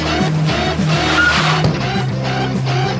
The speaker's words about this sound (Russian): на пешеходном переходе резко тормозит перед парнем в черной футболке